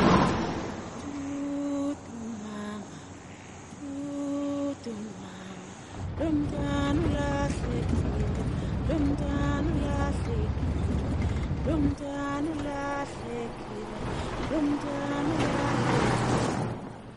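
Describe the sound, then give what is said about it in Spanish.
A car drives along a dusty road in rural Africa. A low engine rumble comes in partway through and holds steady under music and a speaking voice, with a brief dip before it returns. “En coche por un camino polvoriento.”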